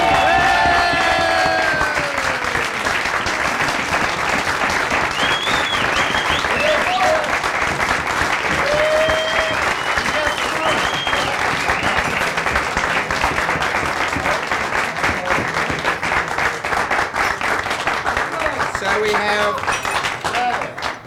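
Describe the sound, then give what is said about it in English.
Sustained audience applause at a community event honouring founders of a gay rights movement: dense, steady clapping from a crowd lasting throughout, loud and unbroken, with a voice speaking over it at the start. “So the three of them, would you like to come and give them yet another hand?”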